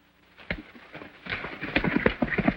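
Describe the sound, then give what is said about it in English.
Hooves of a horse and a mule clip-clop in a small corral with water nearby: many irregular footfalls and shuffles that grow louder and busier toward the end, with no voices. “He looks down at the small corral. One horse, one mule.”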